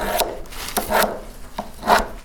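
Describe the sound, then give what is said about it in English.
A knife is sharpened for skinning a bison, giving several loud scraping, rasping strokes at an uneven rhythm with no talk. “We just sharpened the knife”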